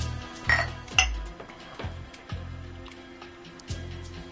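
Beer glasses clinking together in a toast: several sharp glassy clinks with dull knocks, spaced unevenly over a few seconds, the first two the loudest.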